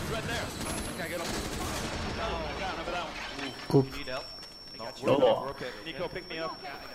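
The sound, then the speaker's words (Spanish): Explosions blast a hole in a wall in a Ubisoft video game demo shown at an E3 2015 press conference, as a couple of loud, sharp bursts rise over dense game noise and gunfire-like crackle while people talk throughout. “El sistema de destrucción es la leche. Vaya boquetazo que han abierto en la pared. Con la explosión.”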